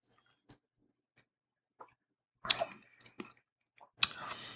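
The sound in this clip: Slurping sips and mouth sounds as someone tastes a fairly earthy, low-tannin wine: scattered small clicks, then a few louder wet slurps and swishing bursts, without any talk.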